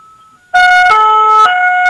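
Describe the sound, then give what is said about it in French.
Gendarmerie car siren, loud and steady, switching between a higher and a lower pitch and then back to the higher one, after a faint tone at the start. “Et comme vous pouvez le constater, on a les avertisseurs sonores et lumineux, qu'on appelle communément la sirène du gendarme.”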